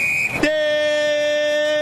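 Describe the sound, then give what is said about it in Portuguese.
A referee's final whistle ends a football match in Porto Alegre with a short, shrill, steady tone. A loud, flat buzzing horn-like drone follows at once and holds to the end. “volta com o Grêmio na esquerda, quando apita o árbitro paranaense Lucas Torezin.”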